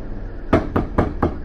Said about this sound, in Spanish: de pronto, unos golpes secos en la puerta me sacudieron el cuerpo.